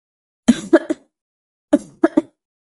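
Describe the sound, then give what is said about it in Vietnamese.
Violent coughing from a sick, weakened person: two fits of three sharp, harsh coughs each, separated by a second of silence, moderately loud with no talk. “Y vội xoay lưng, ho dữ dội một hồi.”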